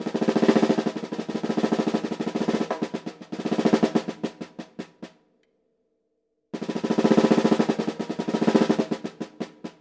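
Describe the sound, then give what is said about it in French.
Rapid alternating single-stroke drumming, right-left-right with a stick in each hand, played very fast. Dense crisp hits pour out in two long bursts, then a few seconds of silence, then another long burst. “Alors lui, ça va très très vite. Donc droite, gauche, droite, avec chaque baguette.”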